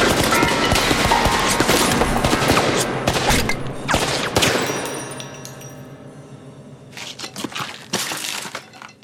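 A volley of gunfire: many rapid, overlapping shots form a loud, dense burst for several seconds and then fade away. A few scattered shots ring out near the end.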